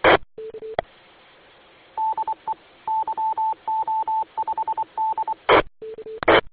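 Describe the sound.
Radio repeater identification tones: groups of short high beeps keyed in a Morse-like rhythm, framed by lower steady tones and sharp bursts of static hiss at the start and end.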